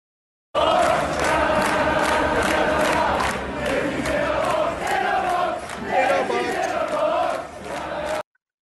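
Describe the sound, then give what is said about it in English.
A stadium crowd chanting in unison, loud and sustained for several seconds with a swelling, rhythmic sung phrase before cutting off abruptly. “You get a chant going. Maybe it sounds something like this.”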